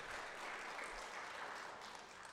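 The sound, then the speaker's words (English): Faint, continuous applause from a church audience welcoming a reverend up to speak, a soft, even patter of many hands that stays level throughout. “if you guys will give her a huge round of applause to welcome her up”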